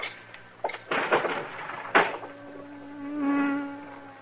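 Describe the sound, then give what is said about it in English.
Droning buzz of a stinging insect, likely a bee, trapped in a room by a closed window. It rises to a steady, sustained hum in the second half, swelling toward the end, after a few brief bumps and knocks. “I'd as soon get stung as listen to all that buzzing.”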